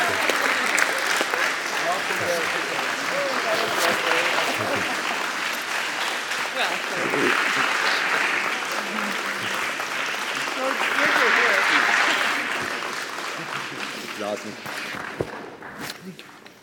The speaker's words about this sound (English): This would be a good time to clap.